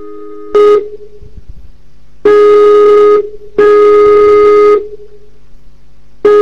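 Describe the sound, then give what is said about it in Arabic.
Ringback tone heard while a call to someone is placed: a steady mid-pitched electronic tone sounds in four separate bursts with short silent gaps between them. “قلت خلاص انا اتصل بالشيخ ما فيش اي مشكلة، واخد فرصة واتعلم من الشيخ واهل مكالمة. اسمعوا.”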